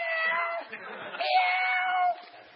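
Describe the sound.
A human voice imitates a lion going meow, giving drawn-out, nasal, cat-like meows that waver in pitch over a couple of seconds.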